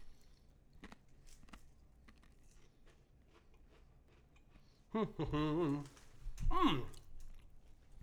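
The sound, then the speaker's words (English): Faint, crisp crunching and chewing of a cracker in short, quiet bites, followed by people talking. “I'm just going to probably eat a cracker.”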